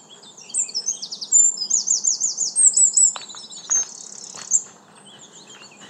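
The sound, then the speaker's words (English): Birds chirp and trill in a park beneath oak trees in fresh late-April leaf. A busy run of high, rapid calls thins to a few scattered chirps over a faint, steady low background. “Here's some sounds from my park.”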